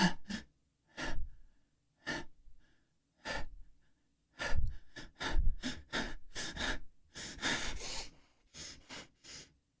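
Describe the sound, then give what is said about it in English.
Deep breathing by a person: many audible inhales and exhales in an uneven rhythm, some heavy and sighing, with no talk. “Take a deep breath”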